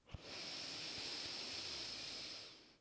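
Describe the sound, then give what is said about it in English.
A slow inhale through the nose during a guided breathing exercise, heard as one long, soft, airy hiss lasting a couple of seconds, faint and alone with no talk. “Bring an inhale into your nose.”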